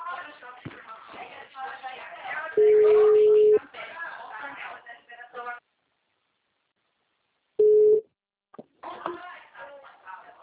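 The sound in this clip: Steady mid-pitched beeps on a phone line as a call drops: two tones, the first about a second long and the second brief, among muffled phone-quality voices and a stretch of silence.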